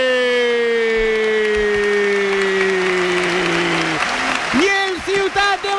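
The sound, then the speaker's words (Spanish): A stadium crowd rises and applauds a home side's goal in a football match: a dense, steady roar of clapping under a man's long sustained shout that falls slightly in pitch before breaking into speech. “se pone en pie para aplaudir evidentemente el esfuerzo local”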